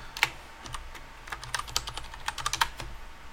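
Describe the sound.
Fingers type a search on a computer keyboard, producing many quiet, irregular clicks in quick bursts with no voices.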